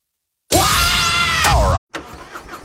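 A Harley-Davidson motorcycle engine fires up and runs loud and rough, its pitch sweeping for about a second before cutting off abruptly. A quieter, different sound follows.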